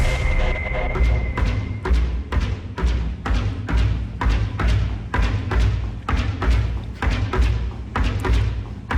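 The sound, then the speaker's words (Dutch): Thumping of a kinetic artwork rhythm machine, many deep, regular knocks in a fast, even beat that keeps going throughout, loud and without talk. “wat jullie horen is boem boem. En dat is een kinetisch kunstwerk. Het is een ritmemachine”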